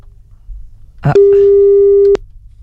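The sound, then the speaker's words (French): A telephone call line gives a single long ringback tone. It is a steady, mid-pitched beep lasting about a second, preceded by a short burst of noise. “Ça sonne, on va peut-être appeler un autre.”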